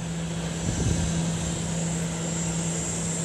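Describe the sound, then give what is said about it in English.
A plane carrying medical supplies drones loudly as it touches down, its engine giving a steady, even roar with a constant humming tone throughout, and no voices. “What you're hearing there are the sounds of a plane carrying 44 cubic metres of essential medical supplies.”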